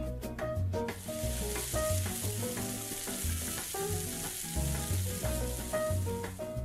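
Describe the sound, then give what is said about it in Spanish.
A hot frying pan with a little oil gives a steady, fairly quiet sizzle that runs throughout with no talking. “Ya se calentó el sartén.”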